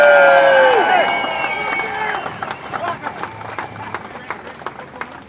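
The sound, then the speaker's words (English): A rally crowd cheers and claps for construction workers, starting with a loud burst of cheering and whistle-like tones that quickly thins into scattered, fading claps. “Let's hear it for the construction workers.”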